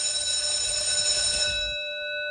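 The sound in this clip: A school bell rings out at the end of class, a loud, continuous metallic ringing that holds steady and then settles into a thinner sustained tone near the end.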